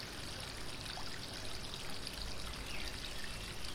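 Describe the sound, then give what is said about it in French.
Water flowing in a fountain, a continuous splashing rush with a bright, hissy texture, steady and fairly soft throughout with no voices. “Ne serait-ce pas de l'eau Une fontaine, oui. Une fontaine.”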